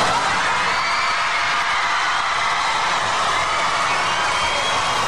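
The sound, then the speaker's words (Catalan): About 1,500 excited children shout in a continuous, loud roar of cheering in the square of the Montserrat abbey as a visitor arrives. The dense crowd noise holds steady throughout without any breaks. “I amb aquests crits d'emoció de 1.500 nens que hi havia, ha entrat dins l'abadia.”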